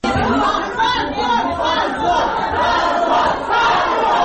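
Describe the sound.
Uproar of people gathered in a courtroom as a verdict is read, a loud, continuous wash of overlapping chatter and shouting voices with no pause.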